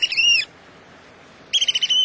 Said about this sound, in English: in Cape May, New Jersey, these American oyster catchers are living up to their name. The crow-sized shorebirds are mostly black and white, except for bright yellow eyes and a long orange bill.